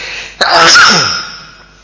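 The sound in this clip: A single loud sneeze erupts with a sharp onset, peaks quickly and then trails off into a fading exhale.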